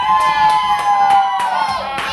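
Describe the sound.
Cheering and clapping from a live studio audience: quick, evenly spaced claps under a sustained high whoop, loud and continuous.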